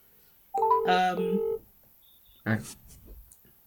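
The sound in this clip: A phone number being dialed: a run of bright electronic keypad tones lasting about a second, followed after a pause by a short burst that sounds like a voice.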